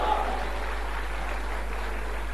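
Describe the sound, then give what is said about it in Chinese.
Applause from an audience at a traditional Chinese comic performance, right after a demonstration of old Taiping ballad singing, forming a steady, even wash of clapping that holds at a moderate level throughout. “通过掌声你就看得出来大伙儿愿意听”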